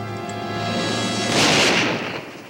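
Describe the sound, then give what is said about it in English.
A rifle shot fired from a rocky outcrop beside a shallow river: one broad, booming burst that swells and then fades over a steady, sustained tonal background. “From a nearby rocky outcropping, Joey aims her rifle.”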